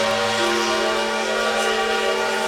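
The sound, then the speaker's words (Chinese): A steamship horn sounds as the ship leaves port: one steady, sustained blast with a rich, layered tone that holds without a break for the whole clip. “轮船缓缓离岸，汽笛声再次响起。”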